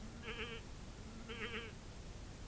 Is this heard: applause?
no